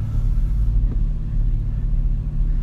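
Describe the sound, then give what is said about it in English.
A car drives along the road on the way to work, giving a steady, low engine and road rumble that drones on without a break and without any talk. “See, I'm back in the mobile podcast, driving into work.”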